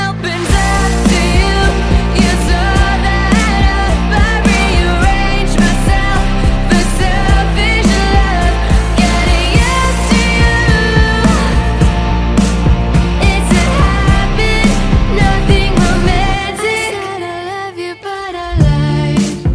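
A recently released single plays with a full band, dense and loud throughout with a steady beat. The arrangement thins briefly near the end before returning.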